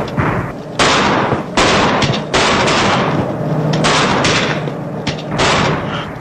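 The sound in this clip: Gunfire as attackers open fire on police: many sharp, loud bursts of shots in rapid, uneven succession, with dense crackling reports overlapping throughout.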